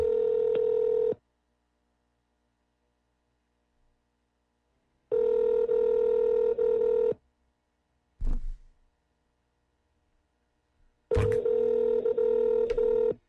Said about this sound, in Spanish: ¿por qué te mandará como una contestadora y después timbra?